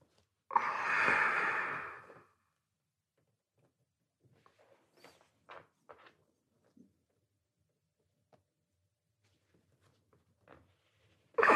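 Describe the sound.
A breath during a guided slow-movement exercise: one clear, breathy whoosh at the start, followed by near silence broken only by a few faint small clicks and taps.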